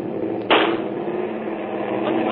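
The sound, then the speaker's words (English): A single gunshot fired during a wartime airport confrontation, a short sharp burst that jumps out of steady background hiss and then sinks back into the noise. “What's up here? Someone shoot? What are you doing? Oh, Captain Renault. Someone has just shot Major Strasser.”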